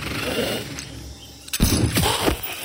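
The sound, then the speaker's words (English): A single loud gunshot bursts in sharply after a low steady hum, and a rough rumbling tail follows it. “I fired another round into the man's stomach.”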